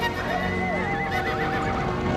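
A horse whinnies as mounted police ride in. The neigh rises and falls over a dense, steady rumble of noise that fills the whole stretch.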